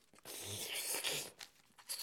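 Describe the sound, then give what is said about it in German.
Paper envelope holding letters being sealed shut, a faint burst of crinkling and rustling paper lasting about two seconds, with a few softer crackles at the end. “So, die Briefe kommen jetzt in einen Umschlag. Zugeklebt.”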